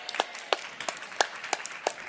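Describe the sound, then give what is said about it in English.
Slow, evenly spaced handclaps, roughly three per second, come faint and sparse as an audience at a talk claps for itself. “I think you should clap for yourselves.”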